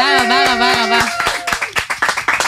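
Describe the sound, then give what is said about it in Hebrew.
Clapping on an Israeli TV entertainment show as a singer is thanked. A voice calls out at the start, then a few sharp, scattered claps follow through the second half. “כפיים!”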